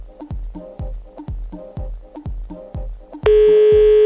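A telephone call being placed, with a regular series of short clicking pulses, then a loud steady ringing tone that starts near the end and continues to the close.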